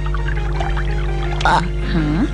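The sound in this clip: Water pouring in a steady, continuous stream, a soft even rushing wash that holds at a constant level throughout.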